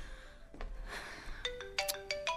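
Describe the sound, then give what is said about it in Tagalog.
A mobile phone rings for an incoming call, playing several quick, bright electronic tones in a short melodic run. The ringtone is faint and comes after some soft rustling. “May tumatawag sa akin. Sino kaya to?”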